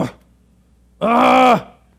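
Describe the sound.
A single short vocal groan, voiced and steady in pitch, lasting about half a second and heard alone without talk.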